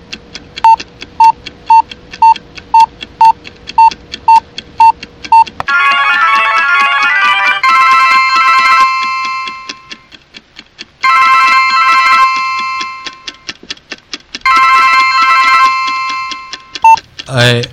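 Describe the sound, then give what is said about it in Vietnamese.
A telephone call rings out: a steady run of short, evenly spaced electronic beeps gives way to three long bursts of a warbling, trilling electronic ringtone separated by brief gaps. “Anh lại gọi cho Yasusaki Satiko.”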